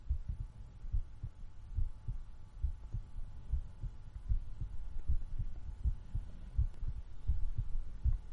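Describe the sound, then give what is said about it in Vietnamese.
A heartbeat pounds in a fast, steady rhythm of many low, muffled thumps over a faint hum, with no voices. “chỉ có tiếng nhịp tim của tôi đang đập liên hồi như là đánh trống trường mà thôi.”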